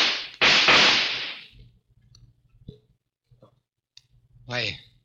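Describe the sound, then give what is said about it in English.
A gun loaded with blanks fires in a radio drama scene, a loud, sharp crack with a long decaying tail. Faint clicks follow, and a brief voice comes in at the end. “I shot you. Yes, Lefty, with blanks in your gun.”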